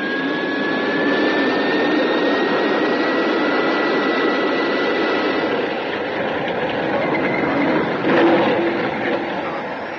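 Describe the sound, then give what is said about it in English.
A loud, steady roar from a spacecraft coming down for a crash landing on rocky ground, a continuous rushing rumble with a thin whistling tone that holds level throughout. “Ground's coming up. There are too many rocks. I'm aiming towards a small crater. Stand by for crash landing.”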